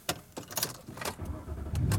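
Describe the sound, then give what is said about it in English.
A car being driven home, with a low engine and road rumble under a few sharp clicks and rattles from inside the cabin; the rumble swells toward the end and no one speaks. “And I am driving home.”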